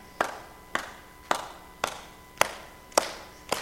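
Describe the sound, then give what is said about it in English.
Hand clapping during a church service: seven sharp, evenly spaced claps at a steady, moderate pace, each crisp and of similar loudness, with no voices over them. “And you're clapping for yourself, aren't you?”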